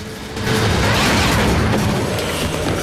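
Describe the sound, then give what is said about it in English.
Heavy hatches closing after a button is punched: a mechanical rumble that swells quickly from a quieter start into a loud, sustained grinding roar that holds steady to the end. “He then wrenches the metal bench back up, throwing Davian brutally to the floor. He punches the button to close the hatches.”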